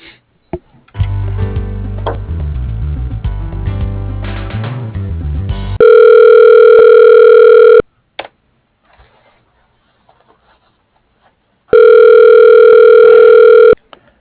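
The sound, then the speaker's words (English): Telephone ringing tones as a call is transferred to voicemail: two long, loud, steady humming rings separated by a quiet pause, following a stretch of shifting melodic tones and a few clicks. “I'll transfer you into his voicemail.”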